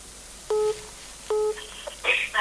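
A telephone call connects with two steady dual-tone beeps at even intervals, followed by a brief cluster of higher electronic tones near the end.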